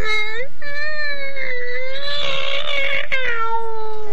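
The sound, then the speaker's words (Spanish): A person imitates a cat in an animal-imitation contest, giving a few loud, wavering, whiny meows that run together almost continuously, with no other talk. “Hay que decirle a ese gato que deje de fumar, ¿ah?”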